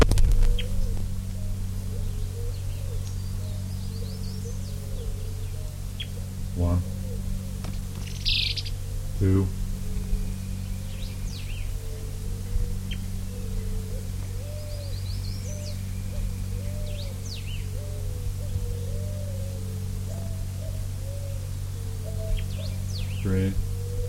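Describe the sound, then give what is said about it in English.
Elaenia birds call and interact, repeating a series of mid-pitched, wavering phrases over a steady low hum. A few brief, sharp, high chirps and clicks break in now and then. “Elania species.”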